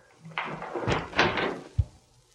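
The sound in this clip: A door being answered, with a few brief rustling, scraping bursts of handling followed by a single low thud near the end, fairly faint and without voices.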